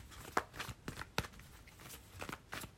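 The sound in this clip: Tarot cards are shuffled softly during a card reading, with a few faint riffles and light slaps spaced unevenly and no talk.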